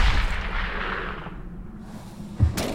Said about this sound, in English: I shot him. Oh, God, I shot him.